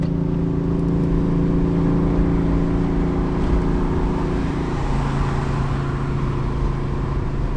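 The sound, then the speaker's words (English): Steady, loud engine drone of a car accelerating in fourth gear at around 3,250 rpm with the windows all the way down, a constant hum with road and wind noise and no pauses. “$3,250 or so. Still in fourth gear. Put the windows all the way down.”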